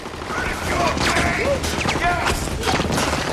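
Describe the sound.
Heavy machine gun fire in an ambush in a darkened back alley: a dense, unbroken barrage of loud cracks and crashes that stays intense throughout.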